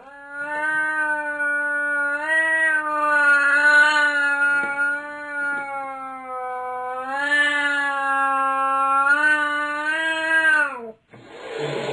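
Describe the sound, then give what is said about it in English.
A cat yowls in long, drawn-out wailing cries rising and falling in two big swells, loud and harmonic throughout, ending with a short noisy burst. “That's the sound of a cat yowling.”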